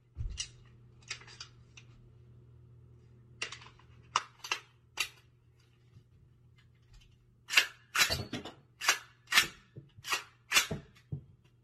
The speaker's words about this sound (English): Yeah, you're really threatening as you empty out your gun of all rounds.